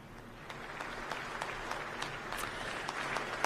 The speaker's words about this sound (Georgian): ფეხზე ადგომით და ტაშით შეხვდა პოლონეთის პრეზიდენტს